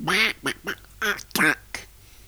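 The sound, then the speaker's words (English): A duck quacking in a quick series of about six short, nasal, honking calls, loud and alone with brief gaps between them. “Number 2 is a duck. 2 is a duck.”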